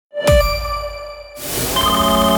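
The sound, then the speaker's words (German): A phone ringtone for a call from an unknown number: a bright electronic chime opens with a sharp struck tone, then shifts to a fuller, loud, sustained chord. “Wenn eine unbekannte Nummer anruft, geht keiner gern ans Telefon.”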